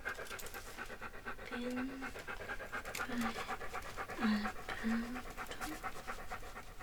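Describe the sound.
A dog panting, quick, steady breaths over faint background noise, fairly quiet, with no talk.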